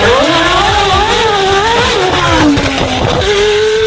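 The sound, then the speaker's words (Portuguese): A Formula 1 racing car accelerates with a loud, continuous engine whine that climbs and dips in pitch as it revs. “a gente começa acelerando. É isso, Fórmula 1.”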